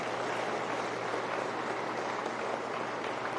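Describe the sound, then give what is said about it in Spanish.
Applause from a gathered audience welcoming the director general of a federal social reintegration prison at an official event, a steady dense wash of clapping that holds at an even level for the whole few seconds, with no voices over it. “les pido que lo recibamos con un fuerte aplauso al licenciado Raúl Platón del Cueto Morales”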